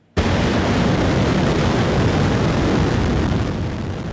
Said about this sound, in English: The 200-ton rocket lifted off at 12:25 p.m. local time from the Naro Space Center.